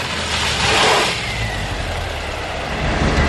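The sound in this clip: A car engine revs loudly in a continuous roaring rumble that swells early on and then holds steady and strong to the end.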